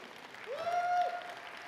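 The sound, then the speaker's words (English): A church audience claps hands during a sermon, a faint, soft patter of applause with a sustained tone that rises briefly in the middle. “Is anybody with me right now? You ought to clap your hands.”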